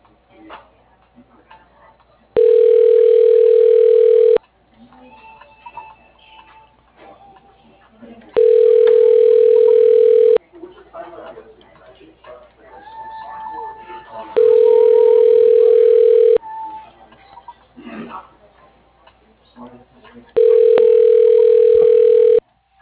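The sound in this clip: Ringback tone of an unanswered telephone call: four long, steady electronic tones, evenly spaced about every six seconds, with low background noise between them.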